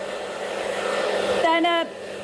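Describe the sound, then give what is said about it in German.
A hair dryer runs with a steady, rushing whir, briefly joined by a higher whining tone near the end before the airflow noise continues alone. “Sie hob den Föhn wieder auf.”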